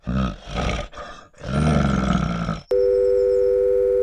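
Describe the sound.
A telephone tone sounds after the other party hangs up. A burst of rough, roaring noise is cut off abruptly and replaced by a loud, steady, unbroken electronic tone that holds to the end.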